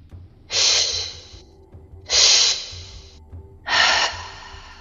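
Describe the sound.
Slow, deep breaths during a guided breathing exercise: three loud, airy exhales, each lasting about a second, at an even, unhurried pace, with quieter breathing between them.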